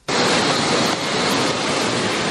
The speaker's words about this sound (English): Guess where I am. Train station. I am at Dubai. Gotta stop over in Dubai for a while, so I thought I'd send you a quick voicemail.